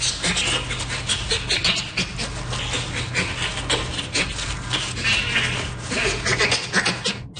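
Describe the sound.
A bonobo makes rapid, rhythmic, breathy panting laughter, voiced on both the in-breath and the out-breath. The pants run continuously and evenly throughout, over a faint low hum.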